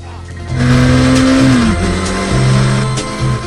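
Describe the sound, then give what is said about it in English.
A motorbike burns rubber as it spins in circles, with a loud, sustained engine whine and squealing tires. The pitch holds high, dips briefly midway, then climbs again. “Chev mounts the bike. He burns rubber in circles as the cop tries to catch him.”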